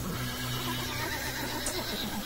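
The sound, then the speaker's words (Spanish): A horse tied to a tree whinnies nervously while drinking water, a continuous low neigh running through the whole clip with no voices. “Al estar tomando agua, el caballo empezó a relinchar muy nervioso, avisándoles de algo.”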